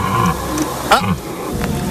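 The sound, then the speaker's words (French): A rutting deer stag gives a brief, harsh roaring bellow with a sweeping harmonic tone near the middle, heard at a wildlife park over steady background noise. “Il y a aussi les cerfs, évidemment, les cerfs. Ah, là, le cerf se reproduit.”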